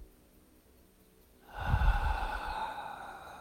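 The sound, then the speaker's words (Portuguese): One slow, quiet inhalation through the nose during a guided belly-breathing exercise. A soft, airy intake swells after a near-silent start and then sustains gently. “Inspira pelo nariz, sente sua barriga,”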